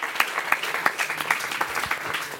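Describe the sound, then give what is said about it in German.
Audience applause for a speaker at a discussion on education, a steady, dense wash of many hands clapping that holds an even loudness throughout, with no voices standing out. “Ja, den Applaus hat sie sich verdient.”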